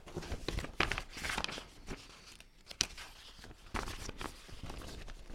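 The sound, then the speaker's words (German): Paper Christmas wish lists are grabbed and sorted, making irregular rustles, crinkles and soft crunching handling noises in uneven bursts, some louder than others. “Na, als allererstes schnappe ich mir mal ein paar Wunschzettel hier. Wow, sind das viele. Cool, oder? Na und nun? Jetzt gehe ich sie erstmal durch, dann weiß ich, was zu tun ist.”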